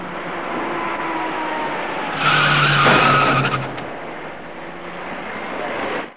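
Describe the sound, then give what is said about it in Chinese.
A white passenger car's tires skid on a wet road at an intersection as it hits a wrong-way electric bicycle rider. A loud, sustained screech over steady road noise swells into a harsher burst midway, then eases off. “驾车由东向西行驶的白色小客司机没有注意到那位逆向而来的骑车人，在骑车人准备转弯进入路口时，躲闪不及的白色小客将他撞翻在路面上”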